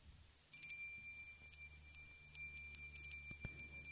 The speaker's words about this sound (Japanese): これはなんか私もこのリンは持ってて、 はい、 朝必ず鳴らすんですけど、もう、すっごい遠くまで行く音ですよね